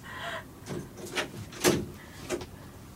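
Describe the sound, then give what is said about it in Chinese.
A door being opened gives a few soft, separate knocks and scrapes, irregularly spaced and fairly faint against quiet background noise. “你快点开门啦”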